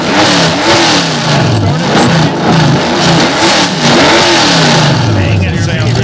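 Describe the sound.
Car engine revving hard, its pitch surging up and down through several quick throttle blips in a loud, continuous, gravelly roar.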